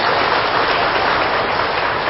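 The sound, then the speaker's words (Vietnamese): Audience applause at a Vietnamese Buddhist dharma talk, heard as dense, continuous clapping that blends into a steady hiss with no gaps, holding an even level throughout. “Xin quý vị chúng ta cho một tràng pháo tay.”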